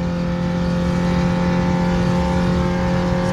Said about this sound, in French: On est déjà à 140. Pour une R5, c'est pas mal. 150.